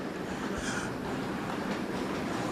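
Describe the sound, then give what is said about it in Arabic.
A Dubai metro train in the station gives off a steady, broad rumbling roar that stays even and unbroken throughout. “سوف أحاول النزول لتشاهد الصورة كاملة، يعني نحن الآن وستشاهد حتى عمق هذه المحطة.”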